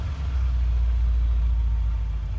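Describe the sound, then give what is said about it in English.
A sports car engine gives a steady, deep, low-pitched rumble that holds an even loudness for the whole stretch, with no revving and no voices. “Moments later, Rob and the slender man gets into the sports car.”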